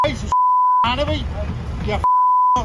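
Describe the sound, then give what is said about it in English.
Two steady, high-pitched censorship bleeps cover swearing in a roadside verbal attack on a politician, with loud shouted talk between them. “Wow, I haven't heard that much beeping since I watched Kitchen Nightmares on TV in America.”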